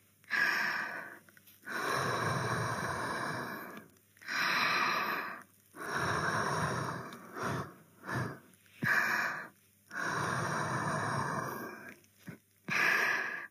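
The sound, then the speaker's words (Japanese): A person softly blows their breath in airy exhalations. Several long, drawn-out breaths mix with a few shorter puffs, all gentle and even, with no talking. “なでなでしながらふうふうしてあげるね。”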